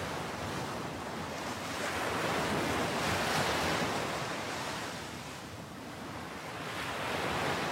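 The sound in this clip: Ocean waves washing onto a sandy beach, a broad hissing roar that swells, eases off, then builds again, with a windy rush running underneath.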